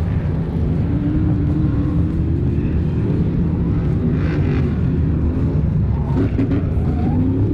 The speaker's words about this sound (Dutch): Laatste ronde, je hoort het. Zijn we op dit moment ingegaan. En dan zullen we ook gelijk horen wie er als eerst, tweede, derde over de finish zal gaan bij deze manche van de F1 Stockcar.